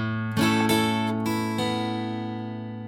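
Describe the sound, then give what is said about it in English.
Guitar strummed in an F-shape chord pattern with open strings: a few bright strums with plucked open-string notes, each one ringing out and slowly fading. “What you're doing here is hitting the open 5th string, strumming down up on the 4th through 1st, and then playing upstrokes on the open 1st and 2nd strings.”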